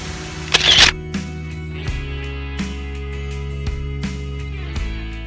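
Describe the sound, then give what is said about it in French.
A single sharp camera shutter click as a photo is taken during landscape shooting near a large rock and trees, followed by soft steady music. “Je vais choisir peut-être celui-ci. Voilà, je prends une photo.”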